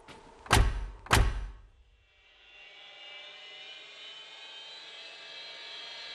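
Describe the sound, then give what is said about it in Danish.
Two heavy thuds, then the engine of a flying air car starts and builds into a steady high whine that holds to the end. “Ja, vi tager min luftbil.”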